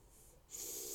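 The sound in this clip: One short, forceful sniff as someone breathes in to smell something, a breathy hiss that starts halfway through and stays loud to the end.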